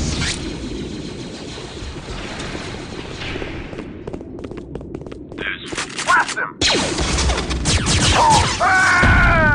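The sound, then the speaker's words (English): Gunfire in a sci-fi confrontation with troopers near a sewer entrance: a rapid burst of sharp shots over a dense rumbling din, followed by loud crashing noise and high whining tones. “What the? Curvix! Nice shot! All thanks to your weaponry training.”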